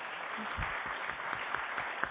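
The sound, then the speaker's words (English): A round of applause for a group of children: steady, quiet clapping from many hands with a few sharper claps standing out. “Wow. Give them all a round of applause.”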